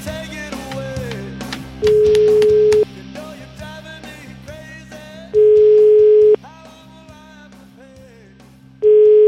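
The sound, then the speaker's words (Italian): Telephone tones sound while a call is placed to a lawyer: three steady, loud, single-pitched tones, each about a second long, repeat at regular intervals, the last cut off, over busy background music. “Via col telefono, vai.”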